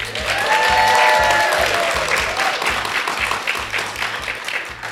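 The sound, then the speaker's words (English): A studio audience at a learning conference in Orlando applauds with loud, dense clapping that peaks early and slowly thins. A steady rhythmic beat of background music runs underneath. “We have an amazing studio audience with us. Let's hear a studio audience.”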